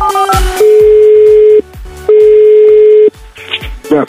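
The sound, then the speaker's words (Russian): Telephone tones while a call is placed on air: a quick burst of dialing tones, then two long steady tones of about a second each separated by a pause, followed by brief clicks and muffled sounds. “Звоним Андрею Сычеву.”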